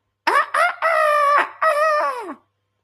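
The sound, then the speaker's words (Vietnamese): A rooster crows hoarsely and off-key, one loud, broken call split into a few strained segments whose pitch sags toward the end, heard alone against silence. “Ở nơi xa một hồi khàn khàn, dở dở ương ương là âm thanh gà gáy đột nhiên vang lên.”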